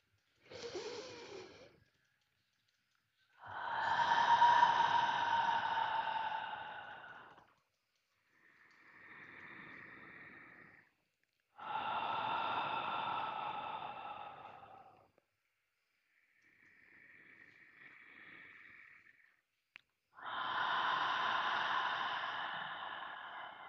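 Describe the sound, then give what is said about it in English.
Slow, deep breaths drawn and released in a calm guided breathing exercise: soft airy rushes without voiced sound, three long, strong breaths alternating with quieter, shorter phases between them. “We're going to take 3 deep breaths.”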